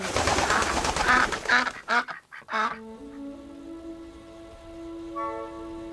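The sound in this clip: Harsh, quacking bird cries sound in a few loud bursts over the first two seconds, then give way to a steady, sustained tone.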